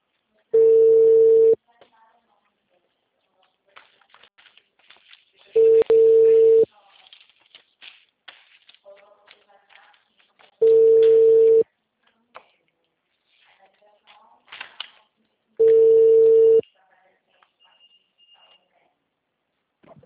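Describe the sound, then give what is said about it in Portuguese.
Telephone ringback tone while a call is being placed: four evenly spaced, steady mid-pitched tones, each about a second long and separated by roughly four seconds, with faint scattered noises in between. “fazendo uma ligação, galera.”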